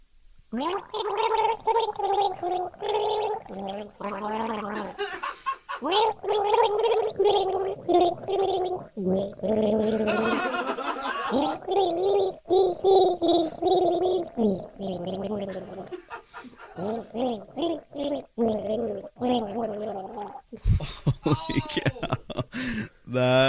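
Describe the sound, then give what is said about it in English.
A person gargles a love song, bubbling and gurgling water in the throat while carrying a wavering melody. It runs loud and continuous for over twenty seconds, with brief breaks for breath and a choppier stretch near the end. “gargling a love song”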